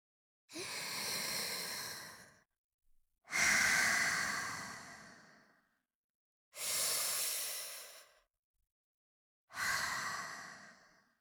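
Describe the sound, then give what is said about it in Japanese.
Slow, deep breathing paced in and out, four long airy breaths standing alone, each swelling and fading over a second or two with short silences between. “吸って、吐いて。吐いて、”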